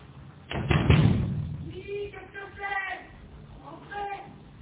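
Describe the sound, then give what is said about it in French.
Hard knocking on the glass door of a concierge's lodge: a loud burst of knocks early on, then voices talking. “Il frappe plus fort.”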